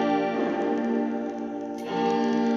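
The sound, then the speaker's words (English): A guitar tone run through a cheap reverse reverb pedal gives a sustained, harmonically rich wash. It dips slightly, then swells and brightens again near the end. “This is a reverse reverb. That's what that sounds like.”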